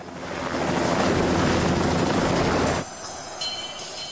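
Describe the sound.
An aircraft landing at a landing point beside a hangar, in a scene from a 1998 action crime film: a loud, dense engine roar holds steady for almost three seconds, then drops abruptly to a quieter hiss with faint tonal whine.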